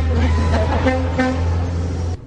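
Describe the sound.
Car horn blaring in one loud, steady honk that lasts about two seconds and then cuts off abruptly, over a low rumble.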